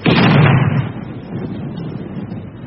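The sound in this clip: A single heavy gun blast as a gun crew fires a shell at a target: a loud, sharp burst at the start that rumbles on and slowly fades over about two seconds.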